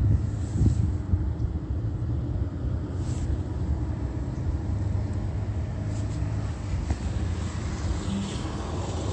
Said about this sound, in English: Okay, and the planes hovering over is called patrolling.